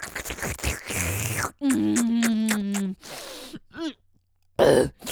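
Someone choking coughs and clears their throat in a few harsh, sputtering bursts, with a long strained groaning vocal sound between them.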